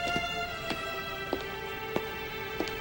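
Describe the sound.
Footsteps walking down a set of stairs after a colonnade: five evenly spaced, hard steps at a steady pace over a constant humming background.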